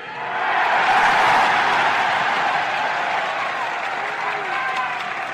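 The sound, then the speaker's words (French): A long, emotional ovation from a large crowd in Montreal after a political speech: dense, steady applause mixed with crowd voices, loud and sustained throughout. “La longue ovation mêlée d'émotions est intense.”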